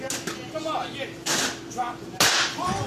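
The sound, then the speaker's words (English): A few sharp, whip-like smacks as a can of Twisted Tea strikes someone in a played video, with voices talking over the loud slaps. “He smacked the shit out of him.”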